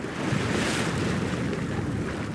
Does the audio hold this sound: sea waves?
yes